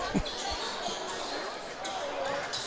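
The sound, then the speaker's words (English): A basketball is dribbled on the court during a game, giving a few low thumps early on under steady crowd noise and a commentator's voice. “Inbound comes to Moore. He dribbles through the key.”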